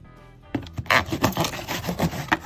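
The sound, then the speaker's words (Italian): Cutting open a box, rough rasping and scraping strokes through cardboard that begin after a quiet moment and continue in a fast, uneven rhythm of many strokes. “Taglio tutto, scatola incluso. Cioè, porca miseria, apriti, apriti!”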